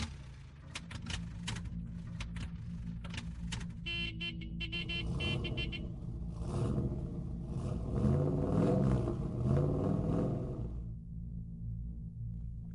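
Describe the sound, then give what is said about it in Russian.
Engine of a vintage Bentley Le Mans car with a 70-horsepower motor moving slowly, a steady low rumble throughout, with a brief honking tone sounding partway through. “Этот Бентли Леман с 70-сильным мотором ползет, как черепаха, раздраженно думал Николя”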